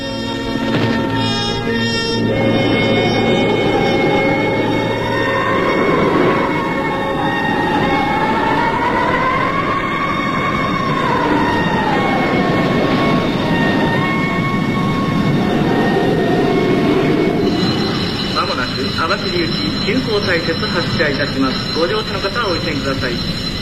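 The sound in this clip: A train running on rails makes a steady, continuous rumble throughout, with high, wavering squeal-like tones riding above it.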